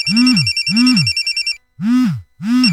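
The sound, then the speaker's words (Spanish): A telephone bell rings in rapid trilling bursts for a restaurant advertisement, repeating in quick pulses before a short pause. Four loud swooping lower tones recur through the ringing, the last two after the bell falls silent. “¿por qué no contestan? ¿Qué no ves que Melimar te está llamando?”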